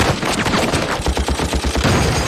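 Rapid gunfire rattles through a battle scene in a TV drama, with many loud, sharp bursts fired in quick succession in a dense, steady volley.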